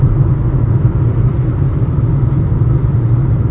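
Steady low rumble of a car driving on the road to a show in Shelton, Washington. The engine and road noise hold an even, unbroken level throughout, with no voices.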